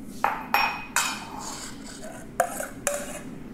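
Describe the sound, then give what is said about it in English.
Spoon transferring orange paste into a cup, with several bright metallic clinks against the cup and soft scraping between them, all fairly faint. “you can use around 2 to 3 tablespoons of this orange paste. I'm just gonna put that in a cup actually.”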